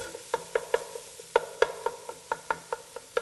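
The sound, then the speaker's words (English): Sausage being stirred and broken up in a pot over medium-high heat for a white bean soup: many sharp spoon scrapes and clicks in a loose rhythm, fairly faint, over a soft sizzle. “Breaking up the sausage as I go.”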